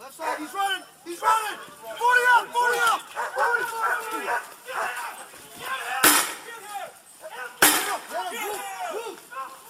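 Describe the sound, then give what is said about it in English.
Two sharp gunshot-like bangs from a police shooting in Connecticut, where troopers exchanged fire with a man who had killed a state police dog. The loud bursts cut through urgent shouting voices. “And to be honest with you, Brett, with all the gunfire going on, and I know the cops had rifles,”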